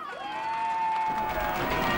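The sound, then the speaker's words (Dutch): Loud crowd cheering in Taiwan at a celebration marking the end of SARS cases: a sustained high whoop rises out of the noise, then a broad roar of voices swells and holds to the end. “Luid gejuich in Taiwan.”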